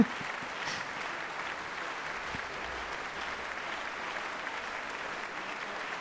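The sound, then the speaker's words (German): Sustained audience applause for a philharmonic orchestra after a performance, a dense even patter of many hands clapping, moderately soft and steady throughout with no voices on top. “weiteren Applaus für den Philharmonischen Orchester Lützeburg an der Gustav Henri Meno”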